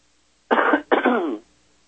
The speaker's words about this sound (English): Sorry, we have a falling barometer in western Colorado today, and I'm afraid I'm going to be coughing a little bit.